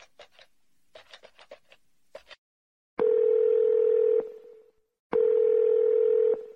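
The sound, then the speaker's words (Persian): A telephone dialing a call: a quick run of short keypad beeps, then two long, steady, mid-pitched ringing tones separated by a pause. “زنگ بهش بزنم ببینم کجاست؟”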